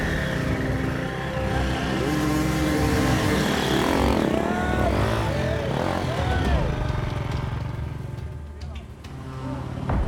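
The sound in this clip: A dirt bike engine roars during a woods race, revving with rising and falling pitch under a speaking voice, steady and loud throughout.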